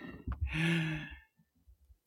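A single deep breath, drawn in and released as a long, voiced, sigh-like exhale lasting about a second, followed by a few faint, soft breathy sounds.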